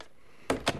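A door being closed: two quick, solid thuds land close together after near-silence, the first slightly stronger than the second.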